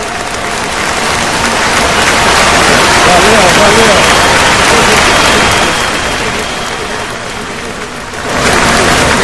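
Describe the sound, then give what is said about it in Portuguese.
Loud, dense applause and cheering from an audience after a song, a sustained roar of clapping that dips briefly near the end before swelling back up. “Valeu! Nossa, o público foi a loucura.”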